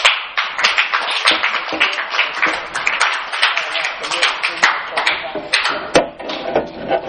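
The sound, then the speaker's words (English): Loud audience applause welcoming speakers to the stage: many dense, overlapping hand claps in a steady, sustained burst that runs the whole length without a break. “So let's give a hand and welcome.”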